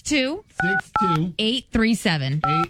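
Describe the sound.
Telephone keypad tones as a number is dialed: a few short, steady beeps cut in among spoken voice phrases.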